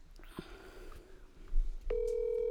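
A telephone call being dialed plays faintly, with a few soft blips and clicks before a steady, even call tone begins and holds to the end.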